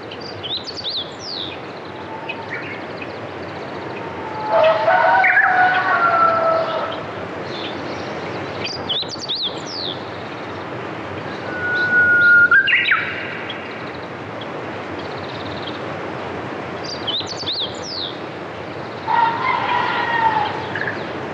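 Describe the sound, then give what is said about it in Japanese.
Chickens and wild birds calling at dawn: three drawn-out, crowing calls come at roughly even intervals over a steady background hiss, while short, high chirps are scattered throughout. “ヤギやニワトリ、野鳥たちが朝を知らせています。いろんな動物の鳴き声で朝を迎えるなんて、まるで映画を見ているようです。”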